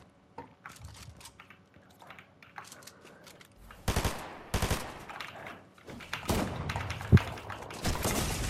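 Video game gunfire in a 1v1 shooter match: quiet at first, then loud automatic bursts and sharp shots crowd together from the middle onward, with one especially sharp crack near the end.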